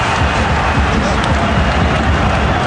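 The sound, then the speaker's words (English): Football stadium crowd noise forms a steady, dense roar of shouting throughout, with no clear swell or break in loudness. “tries to raise the crowd, who do respond with a little bit of a shout”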